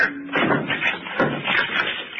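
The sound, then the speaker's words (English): A locked cabinet being smashed open: a few heavy, muffled banging impacts with rattling between them, fairly loud and uneven in rhythm. “Locked. Lock, Doctor. Smash it open.”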